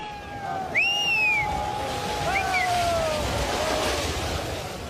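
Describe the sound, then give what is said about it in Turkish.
Monsoon flood water in Assam, India, produces a steady rushing wash, like surf, that runs without a break, while a few high whistling chirps rise above it. “Aşırı yağışlar beraberinde seli getirdi. Evler su altında kaldı. Bazı binalar yıkıldı.”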